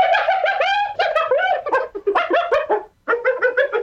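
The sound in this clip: A hyena calls in a rapid series of high, harmonic yelps and whoops, many bursts in quick succession with a brief pause near the end before the calls resume.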